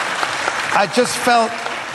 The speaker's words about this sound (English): Round of applause for Sean Locke.